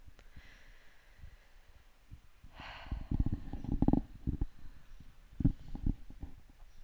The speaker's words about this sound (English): taking the deepest breath you have taken all day. And I'm going to do it with you. I'm going to move my microphone away from my face.